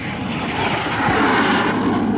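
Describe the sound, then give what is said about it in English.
Roar of a plane taking off, a broad, rumbling engine drone that swells slightly toward the middle and stays strong throughout, heard alone without talk. “The robot police are now moving the man to their plane, and there they go.”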